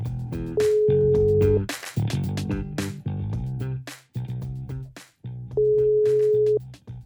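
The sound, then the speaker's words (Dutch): Telephone ringback tone while a call is being placed: two steady, mid-pitched beeps, each about a second long and roughly four seconds apart, sounding over a louder background music jingle. “Bellen met Maarten, het orakel uit Fasen.”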